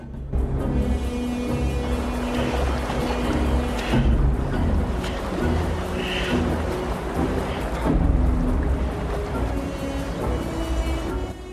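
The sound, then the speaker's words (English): River water rushes past rocks as a rafting boat with paddlers approaches a stretch of rapids. A steady, full roar of churning water carries throughout, thick and unbroken, with slight swells in loudness. “The water starts to flow faster past the rocks.”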